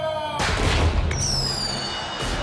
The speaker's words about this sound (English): Someone put firecrackers in the cannon.